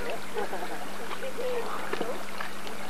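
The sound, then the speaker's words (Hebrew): Water drips and trickles along the path of an avalanche, a continuous wet rushing murmur with a voice talking over it. “וכאן זה מטפטף.”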